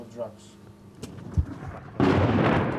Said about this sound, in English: Russia hasn't given up yet. Their artillery is still firing.